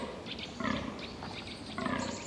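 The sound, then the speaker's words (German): Red deer stags roaring in a forest during the rut: a few deep, rough, harmonic bellows rise out of a continuous guttural groaning background. “Solange sich noch nicht alle Weibchen gepaart haben, geht das Getöse im Wald weiter. Bis Ende November dauert die Brunft. Für die Hirsche endet dann ein wochenlanger Kraftakt.”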